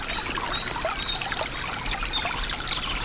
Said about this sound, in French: Sur laquelle serpente ce petit ruisselet.